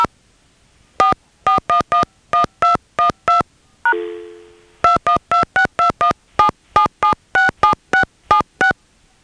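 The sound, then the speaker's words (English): A phone number being dialed with touch tones on an AT&T line: a quick run of evenly spaced beeps, a single decaying bong tone, then a longer, rapid run of beeps, all loud and clean. “Please dial the number you are calling.”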